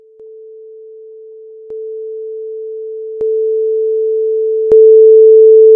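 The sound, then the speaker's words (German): A steady pure sine tone holds one pitch throughout while its loudness climbs in four abrupt steps of 10 decibels each, giving five distinct levels that end at the loudest. “Um dafür ein Gespür zu bekommen, hier mal ein Ton, dessen Lautstärke mehrmals sich um jeweils 10 Dezibel erhöht.”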